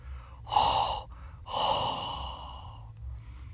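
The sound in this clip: Heavy, hot breathing recorded in a car: two loud, airy breaths, the first short and the second longer and slowly fading, with a low rumble underneath.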